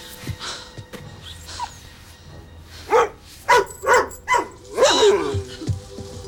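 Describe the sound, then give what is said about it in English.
Dogs bark in a quick series of several loud, sharp barks clustered together after quieter moments, with faint snuffling sounds between them. “Are these your lovely dogs? Yes, you're right.”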